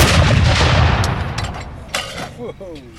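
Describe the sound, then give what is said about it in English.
A 25-pounder artillery gun fires a blank round in a single loud blast that booms, then slowly decays into a rumbling tail over a few seconds. “Number one gun. Fire! Fire!”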